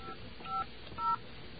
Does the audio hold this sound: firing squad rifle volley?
no

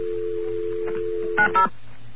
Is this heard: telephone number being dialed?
yes

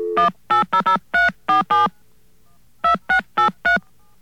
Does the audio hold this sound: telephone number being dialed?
yes

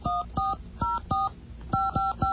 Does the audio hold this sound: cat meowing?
no

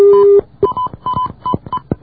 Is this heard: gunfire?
no

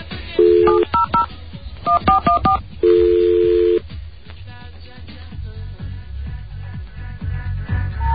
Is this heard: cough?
no

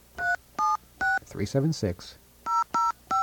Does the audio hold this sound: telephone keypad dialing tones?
yes

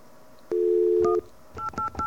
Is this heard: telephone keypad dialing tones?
yes

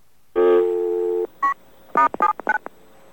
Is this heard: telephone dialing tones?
yes

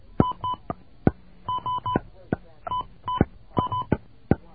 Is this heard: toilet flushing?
no

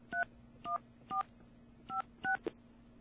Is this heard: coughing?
no

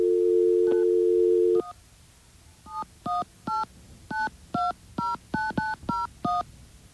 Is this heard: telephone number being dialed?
yes

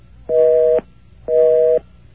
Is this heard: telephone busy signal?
yes

